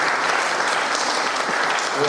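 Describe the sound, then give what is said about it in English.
An audience claps for a young sound engineer being introduced, a dense, even round of applause that holds steady throughout. “Do you want to give him a good clap or say hello to Logan?”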